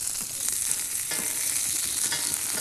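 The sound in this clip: Asparagus searing in a hot pan, a continuous crackling sizzle packed with fine pops, steady from start to end with no talking.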